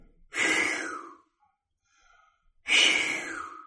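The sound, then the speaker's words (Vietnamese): A sleeping person breathes heavily, with two long, loud, breathy rushes of air separated by a quiet pause. “Chị nghĩ trong đầu, chồng mình nay mệt quá, ngủ gì mà thở dữ vậy ta.”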